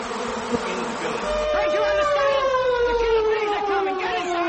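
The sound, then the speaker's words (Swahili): Thousands of bees swarming out of broken-open beehives: a dense, loud droning buzz with whining tones that sink gradually in pitch, steady throughout. “na maelfu kwa maelfu ya nyuki wakatoka kwenye mizinga ile na kuanza kuwashambulia maafisa wa usalama”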